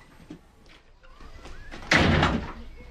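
A door shut behind departing visitors with a single loud slam: a broad, heavy thud that lingers briefly before fading, following quieter shuffling movement.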